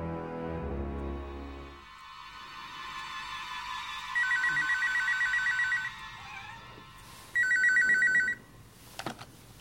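Telephone ringing in two long trilling bursts with a pause between them, loud and clear, with no voices, after a low rumbling sound at the start.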